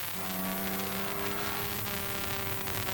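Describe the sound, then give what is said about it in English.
A race car moves off from the starting line and accelerates hard toward Dunlop Bridge. The engine gives a loud, steady, droning roar with strong low humming tones and no other sound. “getting ready to move off. Moving off. Accelerating hard up to Dunlop.”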